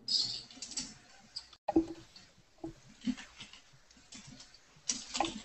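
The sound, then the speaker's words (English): Typing on a computer keyboard while entering links: many quick, irregular keystroke clicks and clatters, with a brief pause partway through, steady throughout the stretch. “Somehow I can't type.”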